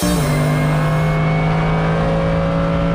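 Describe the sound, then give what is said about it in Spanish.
A race car drives at full speed on asphalt. The silver machine has adjustable aluminum suspension. Its engine gives a loud, steady drone at an unchanging pitch for the whole clip, with no talk. “Al volante de esta poderosa máquina viene la piloto afro-libanesa Nicole Mudaber.”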